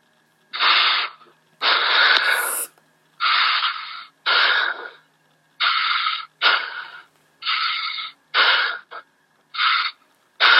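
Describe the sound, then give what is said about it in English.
Heavy breathing, in and out, through a phone call: a steady series of about ten loud, rough, breathy bursts with short gaps of silence between them, evenly paced and alone. “Just breathe in and out 5 times heavily.”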